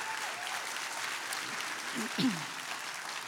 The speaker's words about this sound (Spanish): Dale ese aplauso a Jesús. Give Jesus that hand.